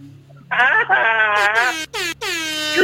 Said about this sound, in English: Are you on the air horns after everything that you say?